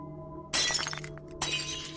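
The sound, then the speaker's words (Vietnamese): A flower vase topples to the ground and shatters in a sharp, bright crash of breaking glass with scattering fragments, then a second burst of breakage, over a faint steady hum. “Cái bình hoa đột nhiên đổ nhào xuống đất, vỡ tan tành.”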